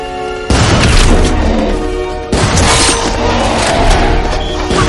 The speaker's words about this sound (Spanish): O'Connell sube al segundo piso. Dispara por la ventanilla.